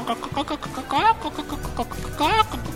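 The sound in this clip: A human voice imitates a chicken clucking, with a run of short clucks broken by two higher, drawn-out squawking calls.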